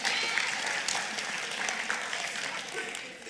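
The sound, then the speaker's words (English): Audience applause for performers, a loud, dense wash of clapping that holds steady for the whole stretch and tapers only slightly at the end. “Let's give them a hand. Good job.”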